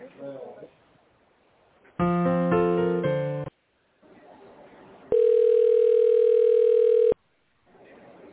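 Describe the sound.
Telephone ringback tones while a call to a company is transferred to its tender department: a short chime-like melodic passage, a pause, then a steady continuous tone for about two seconds, with line hiss in the gaps.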